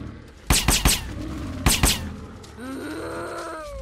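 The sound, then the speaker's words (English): Gunfire rings out in a zombie-shooting video game as two quick bursts of sharp, loud shots fire in succession. A low, wavering groaning tone follows, with the game's background hum running underneath. “So we're just kind of running around shooting zombies.”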